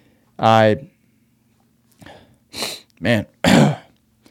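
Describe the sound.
Throat clearing caused by mucus: a short voiced hum, then a few rough, raspy bursts of throat clearing close together, loud and alone without talk.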